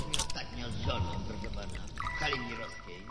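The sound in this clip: Wine pours from a bottle in a continuous gurgling stream that carries on under a voice talking over it.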